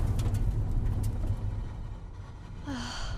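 A car driven fast along a rough road, with a heavy, uneven low rumble and rattle throughout, then a brief hiss near the end as a tire gives out.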